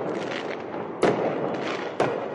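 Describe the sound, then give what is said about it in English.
Fireworks set off by a crowd of street protesters in Columbus, Ohio: two sharp, loud bangs about a second apart, each with a quick decay, over a continuous rumbling crowd din. “Some in the crowd last night set off fireworks.”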